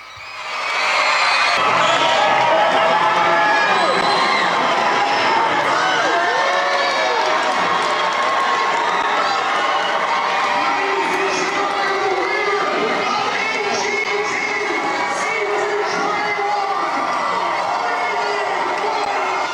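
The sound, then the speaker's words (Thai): Children gathered before a giant TV screen at an international school in Phuket erupt in loud cheering and screaming as a classmate wins a talent show. After a brief quiet start, a sustained roar of shouts and whoops continues. “และทันทีที่พิธีกรประกาศว่าเนเน่คว้าแชมป ์เสียงเฮก็ดังสนั่นเนี่ยค่ะ”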